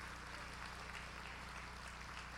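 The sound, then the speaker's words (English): Church audience applauding to welcome online viewers, a faint, dense and steady clapping texture with no distinct voices. “Let's give them a hand and welcome them to the house.”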